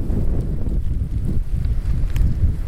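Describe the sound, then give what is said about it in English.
Wind buffeting a microphone fitted with a windscreen outdoors during a short walk from work to a doctor's office: a loud, steady low rumble with gusty swells throughout and no talk. “So sorry for the wind. I do have my wind screen on.”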